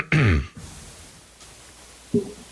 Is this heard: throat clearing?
yes